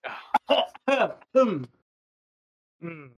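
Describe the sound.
Throat clearing: a quick run of rough, voiced rasps with short breaks between them, then silence and one more short, rough sound.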